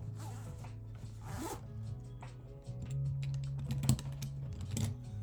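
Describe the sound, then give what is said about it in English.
A zipper rasps open on an old middle school pencil bag. The short, scratchy pulls come in a few quick strokes and are fairly quiet. “Bring out the old middle school pencil bag.”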